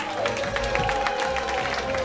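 Applause from a Soho Theatre audience welcoming the host of a comedy game show onto the stage, a dense, steady patter of many hands clapping with a sustained tone running underneath.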